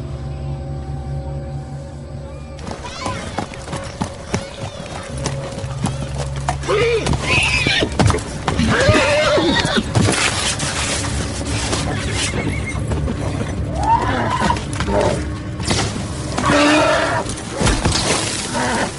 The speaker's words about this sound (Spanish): Tráeme su caballo.